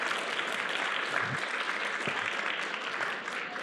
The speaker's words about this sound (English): Can we give it up for these two lovebirds?